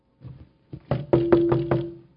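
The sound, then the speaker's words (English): Knocks on a door: a few softer raps come first, then a run of heavy, evenly spaced knocks that ring out solidly. “And there's a knock on the door. It is big.”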